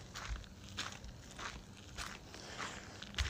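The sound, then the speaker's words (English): Footsteps of a person walking on a road at night: a steady run of soft, scuffing steps at an even walking pace, with no talk over them. “But tonight I'm just out walking on the road”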